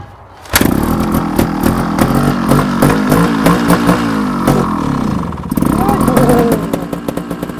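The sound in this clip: A trial motorcycle engine starts abruptly and runs loudly, idling and revving with rapid throttle blips. It dips briefly past the midpoint, then revs up again and ends in short, sharp bursts.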